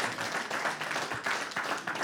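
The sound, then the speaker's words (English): A church audience claps together in honor of someone: dense, steady applause with many overlapping hand claps, moderately loud and continuous throughout, with no clear pauses. “we're actually clapping for you right there, man.”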